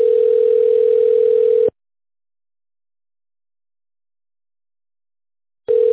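Telephone tone heard while a call is being transferred: a steady mid-pitched tone for under two seconds, about four seconds of silence, then the same tone starting again, with no voices.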